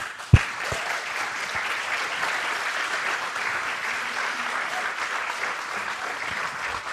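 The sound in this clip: An audience applauds to welcome a speaker to the stage. The clapping is dense and steady and lasts the whole time, with one sharp knock near the start.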